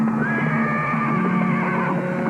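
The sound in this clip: A horse neighs loudly as it rears and throws its rider, a long wavering whinny carried over a steady rough background noise, with no talking.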